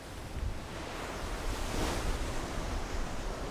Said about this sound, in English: The wind is starting to pick up.